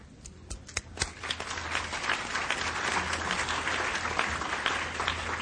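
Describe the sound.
Applause from forum members electing vice chairpersons and a rapporteur by acclamation, a dense, steady patter of many hands clapping that holds at an even, moderate level throughout.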